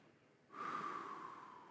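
A deep breath let out slowly during a seated mindfulness exercise: a soft, airy rush begins after a brief quiet moment and holds steady, fairly faint, to the end, with no talking.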